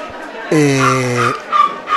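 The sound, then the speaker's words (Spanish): A small dog whines in one drawn-out, nasal tone lasting under a second, followed by fainter, shorter sounds, with people talking around it. “Tenemos ahí un perrito que se está quejando, no sé por qué.”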